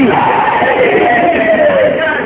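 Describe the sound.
Crowd at a religious gathering shouting the Nara-e-Haidari slogan response in unison: a loud, sustained roar of many voices merging into one held cry.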